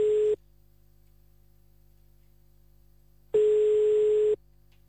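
Ringing tone of an outgoing telephone call: a steady tone cut off at the start, then a long quiet gap with low hum, then one full tone burst of about a second.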